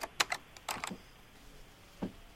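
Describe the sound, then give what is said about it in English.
Typing on a computer keyboard in a loan office: a few light, sparse key clicks in an irregular burst, then a pause before one more soft tap. “I need to type it here into the computer.”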